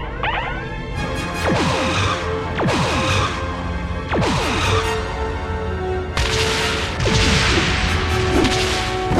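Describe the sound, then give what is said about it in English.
Sci-fi photon torpedo effects as torpedoes are fired and strike a target: a series of sharp, bright whooshing bursts with quick descending sweeps, loud and punchy, following one another at uneven intervals. “Photon torpedoes locked on target and torpedoes away.”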